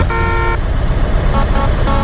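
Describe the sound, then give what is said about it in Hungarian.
A bus horn honks in a racing video game, first with one longer blast and then a few short toots. The honks sit over a constant loud, low rumble. “dudál. Ő is dudál.”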